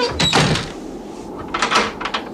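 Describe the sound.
A door is shut and locked: a loud knock of the door closing is followed after a pause by a cluster of softer clicks and rattles from the lock.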